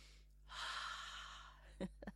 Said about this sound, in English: So let's all take a breath, a deep breath this morning, in and out. Let's do this together.